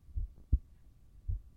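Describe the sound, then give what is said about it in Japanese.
Three low, muffled heartbeat thumps sound at an uneven spacing, with the middle beat the sharpest and loudest. A soft, dull hum fills the gaps between beats. “心臓の音。”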